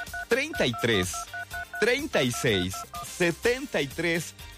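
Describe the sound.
Telephone DTMF dialing tones beep in many short, evenly pitched bursts, interleaved with a voice speaking throughout.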